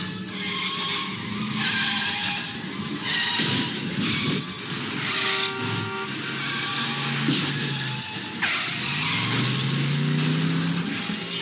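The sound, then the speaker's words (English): Tires skid and squeal as an out-of-control cab careens in an animated series. Loud, continuous screeching with shifting tonal whines and engine revving runs through the whole clip, with no talk. “Spider-Man himself, who does his best to stop the out of control vehicle from hurting too many citizens below.”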